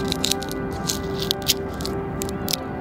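A pocket knife chips still-wet anti-graffiti paint off a park wall, giving many short, crackling scrapes and clicks at an uneven rhythm over a steady background hum.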